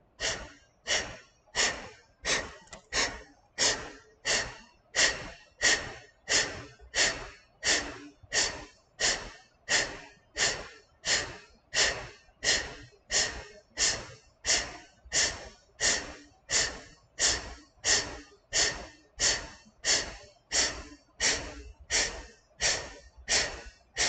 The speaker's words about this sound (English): Exhale, exhale, exhale, exhale. Suck in your stomach as fast as you can, and then let it right back out.